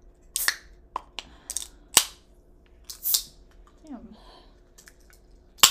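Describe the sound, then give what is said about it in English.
Cracking open a drink gives a few sharp snaps and clicks spread across several seconds, with soft rustling and a brief fizzy hiss between the crisp transients. “Also, it's time. I'm cracking open my drink.”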